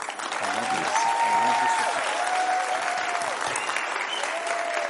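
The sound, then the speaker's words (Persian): Congregation applauding a preacher at a church gathering: sustained, dense clapping with a voice calling out above it at times. “واقعا اونجور که شایسته است برای این مرد خدا دست بزنید”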